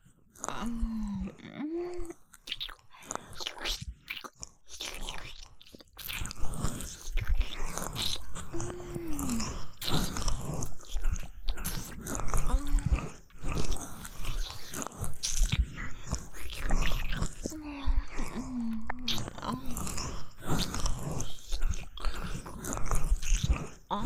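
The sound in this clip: Someone bites into and chews a big portion of food, with many crisp bites and wet chewing sounds repeating irregularly. A voice speaks softly at times between the bites.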